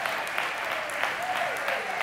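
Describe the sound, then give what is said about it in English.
Audience applause at a Christmas sermon forms a dense, steady wash of clapping at even loudness throughout, with a faint voice briefly audible beneath it. “Your applause have already showed me that the title has done its job.”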